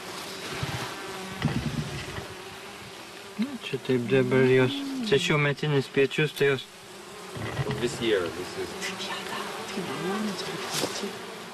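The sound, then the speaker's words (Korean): Bees buzzing as they fly back into a hive set in a dead tree trunk, carrying pollen. A steady, dense insect drone runs throughout, with people talking over the middle stretch. “그 지금 들어가는 벌들이 꽃가루 묻혀서 지금 다시 들어가는 거예요. 그러니까 일하러 갔다 지금 돌아오는 거예요.”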